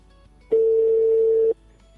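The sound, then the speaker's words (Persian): A ringing tone on a telephone line as a call is placed, heard as one steady, mid-pitched tone about a second long over a faint low hum. “بیایید با این نفری نوبتی زنگ میزنیم.”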